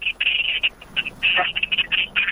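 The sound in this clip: A telephone line connects to a caller with an intermittent, high, narrow electronic tone that stutters on and off in short bursts. The tone is fairly loud, with a thin, band-limited line quality.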